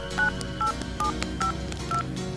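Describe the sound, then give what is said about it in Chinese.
Touch-tone keypad beeps as a telephone number is dialed: five short tones in a brisk, even rhythm with soft key clicks, over a steady low background hum. “曹小宝一把按下电话，又拨了个号码。”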